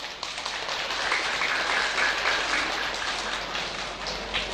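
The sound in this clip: An audience applauds to welcome artists at a Buddhist audience's ceremony. The clapping is dense and steady, with a sustained patter of many hands that holds an even level and has no voices over it.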